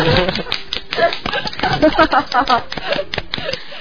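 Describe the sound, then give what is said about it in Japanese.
Scattered clapping in a studio welcoming a guest: many sharp, irregular hand claps, uneven in rhythm, with people talking over them. “はい、拍手”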